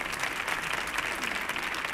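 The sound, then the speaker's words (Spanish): An audience applauds a guitarist returning to the stage at a live music show. The clapping is a steady, dense patter of many hands, even in level throughout, with no voices standing out. “Otro aplauso para el guitarrista también, por favor, Alejandro Suárez, que vuelve al escenario otra vez.”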